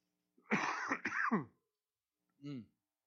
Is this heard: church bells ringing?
no